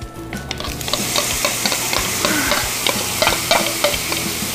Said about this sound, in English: put this back on the pan, add a little bit of oil. And now we're gonna add our vegetables.